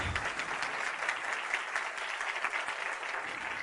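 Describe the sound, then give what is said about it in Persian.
Audience applause fills the hall after a lecture: steady, dense clapping from many hands, fairly soft and even in level, continuing unbroken for nearly four seconds with no voices over it. “مرسی همیشه تشویق کنید تشویق چیز خوبیه”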